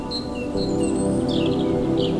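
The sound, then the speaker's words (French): Birds sing in pine and holm oak woods a few hundred metres from the ocean, giving a few faint, high, short chirps and tweets over a steady low background hum. “orchestrés par le chant des oiseaux”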